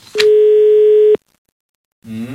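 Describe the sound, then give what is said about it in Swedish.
A single steady telephone tone sounds for about one second while a call is being placed, then cuts off into silence before a voice briefly begins. “Nu ringer vi till Gunnar.”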